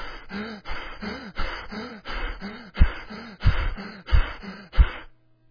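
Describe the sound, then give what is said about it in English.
Heavy panting from a person who has just run a mile at full pace: loud, rapid breaths in and out in a steady rhythm, many in a row, with no talking. “Even the most healthy person in all the world, when they've finished running a mile at their best pace and speed, will sound like this.”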